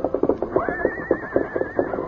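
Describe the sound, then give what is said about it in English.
A restless paint horse whinnies while rearing and pawing the ground, a wavering high-pitched cry held for over a second above a steady run of rhythmic thumping beats. “Scout continued to whinny, rear, and paw the ground as Randy led him to the corral. The behavior of the paint horse was something new to the rancher.”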